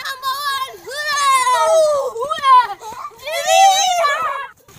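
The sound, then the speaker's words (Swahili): High-pitched, happy children's voices near a family home that uses biogas, with lively, melodic calls and squeals rising and falling in a few bursts. “Ninapoondoka eneo hili, sauti ya watoto wenye furaha inaendelea kuleta tabasamu kwa wazazi wao.”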